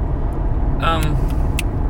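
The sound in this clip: Low, steady engine and road rumble inside a moving car after a game, a continuous drone with a few brief, faint sounds over it.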